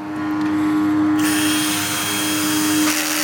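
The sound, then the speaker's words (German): Continuous whirring of a cordless screwdriver mounting metal fittings on a two-part wooden ladder: a loud, steady motor hum that turns brighter and hissier partway through and runs without a pause. “Anschliessend packt er den Akkuschrauber und montiert die Metallbeschläge. Äh, jetzt hier montieren wir den äh, Oberbeschlag.”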